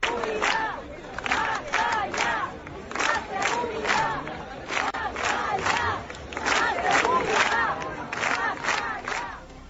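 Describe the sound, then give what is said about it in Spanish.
More than 300 people at a street protest in Corralejo, Fuerteventura, called by neighbourhood groups, chant in unison. Loud shouted bursts repeat in a steady rhythm, rising and dipping together across the whole stretch. “Esto que escuchaban es el sonido de una manifestación que ocurría en el día de ayer en Corralejo, en Fuerteventura.”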